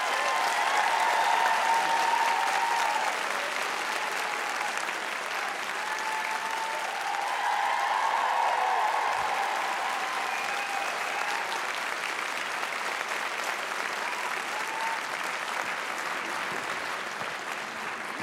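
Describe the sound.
Audience applause welcoming a speaker onto a stage, a dense, steady wash of clapping that holds an even loudness for the whole stretch, with no voices standing out.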